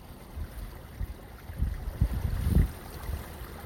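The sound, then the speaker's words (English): Loud wind gusts across a stretch of thick ice, a low rumbling roar that swells in uneven bursts, builds to its strongest surge near the end, then eases back to a steady low rush. “Listen. There's some loud wind.”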